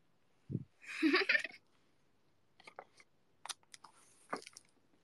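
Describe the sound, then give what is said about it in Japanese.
Chewing sounds from someone eating a meal: a soft low thump, then a dense burst of crunchy, wet mastication noise, followed by scattered faint clicks and smacks in short bursts, with no talking. “くちゃらーかもしれないから、ちょっとやめるわ、食べるの。ご飯食ってる。”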